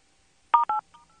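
Telephone keypad tones sound in an automated phone menu: two short, clear beeps in quick succession, then a fainter, briefer tone.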